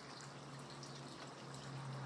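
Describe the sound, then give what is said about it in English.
Water in a garden pond flows in a continuous, even trickling rush that holds steady at a moderate level throughout. “I'll leave you with tranquility of my pond and the wee birdies.”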